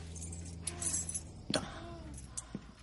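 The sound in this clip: Keys jangling as a set of car wash keys is handed over: a few brief metallic clinks and rattles over a faint, steady low hum.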